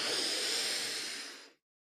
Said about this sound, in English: put your both hands on your chest, take in a breath in through your nose